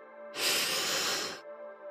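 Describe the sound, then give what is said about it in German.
A deep breath in through the nose during a guided meditation, a smooth, loud, airy rush lasting about a second over soft, steady background tones. “Atme tief ein durch die Nase”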